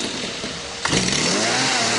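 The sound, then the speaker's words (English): A gas-powered GoPed scooter being test-driven at a factory, its small engine buzzing in a steady high drone before revving up partway through, turning louder and brighter. “That is the sound of a gas-powered GoPed scooter, Patmont's invention, being test-driven here at Patmont Motor Works factory just outside Reno,”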